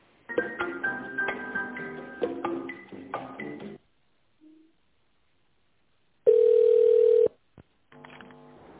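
A telephone ringing tone plays while a call is transferred. A single steady, mid-pitched tone lasts about a second, preceded by a stretch of other tonal sounds and followed by a few short clicks.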